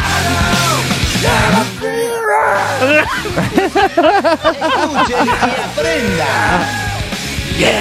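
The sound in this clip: A person yelling loudly close to the microphone during a lively evening radio show, with strained, pitch-swooping shouts over background music.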